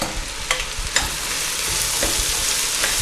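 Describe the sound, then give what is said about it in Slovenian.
A large batch of onions fries in plenty of oil in a wide pot for a classic Hungarian stew. The sizzle is steady and hissing, and a few sharp scrapes of stirring break through it. “veliko olja in zato, ker je seveda veliko čebule, tem bolj je lonec širok, tem bolj enakomerno se bo čebula opražila.”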